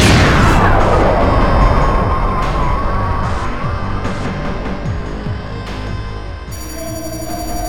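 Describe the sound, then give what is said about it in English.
A bomb explosion bursts loudly at the start, then decays into a long, rough rumble with scattered clattering debris. A steady high ringing tone joins near the end. “It's a bomb. It's a... boom.”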